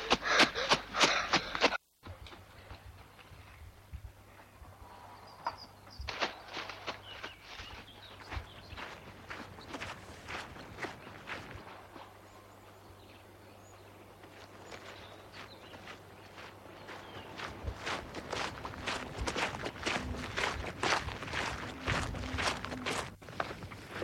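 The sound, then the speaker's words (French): Footsteps of someone walking through the countryside make a long run of soft, fairly steady steps. They stay faint over low background noise and grow a little busier toward the end. “Jean-François marche droit devant lui dans la campagne.”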